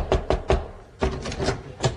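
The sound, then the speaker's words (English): Knocking on the door of a private home: three quick, firm raps, a short pause, then a few more evenly spaced knocks, clear and with no voices. “Thou knocked”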